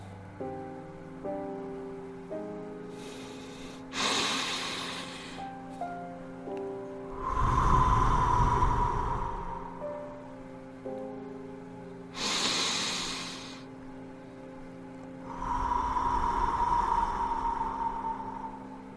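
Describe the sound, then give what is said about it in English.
Slow, deep breathing in and out, two full cycles of hissing inhales followed by longer, fuller exhales, over soft, sustained musical tones. “Breathe it all in. And breathe it all out.”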